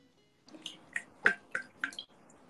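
Water drips and splashes while clay is rinsed off one hand. Several bright, distinct drops fall at an uneven pace over a faint background hiss.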